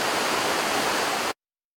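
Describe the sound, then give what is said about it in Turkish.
A stream near Saitabat village on Uludağ rushes with a loud, steady, hissing wash of water that cuts off abruptly after just over a second. “Yerli turistler Uludağ'ın serin havası eşliğinde gürül gürül akan suyun oluşturduğu görsel şölene duyduğu hayranlığı sosyal medya hesaplarından bol bol paylaştı.”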